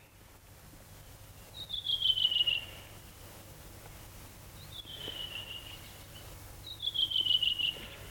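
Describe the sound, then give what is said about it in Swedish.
A redwing thrush sings, giving three clear, descending whistled phrases spaced a few seconds apart over a steady low background hum. “så sitter den där en rövingetrast och sjunger energiskt, frenetiskt. Sjunger och sjunger och sjunger.”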